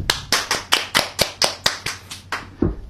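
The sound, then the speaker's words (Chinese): Rhythmic clapping from an audience prompted to applaud after a song on stage: a steady, evenly spaced run of sharp, crisp claps at a brisk pace, fairly loud and with no talk over it. “俾啲掌声自己好唔好？”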